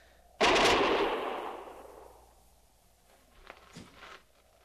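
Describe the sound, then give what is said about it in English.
Gunfire from men up on a rim, opening with one loud blast that rings out and slowly decays, followed by a few fainter, softer cracks. “We've stopped firing. We've turned him back.”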